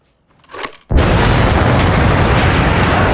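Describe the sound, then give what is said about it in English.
An explosion blows up a two-story wooden chalet beside a lake on screen. A faint rustle precedes a sudden, heavy boom that swells into a loud, sustained roaring rumble. “The kids stare in awe at repeated shots of the shadow being blown to smithereens. The debris falls down in a blanket of rich red flames.”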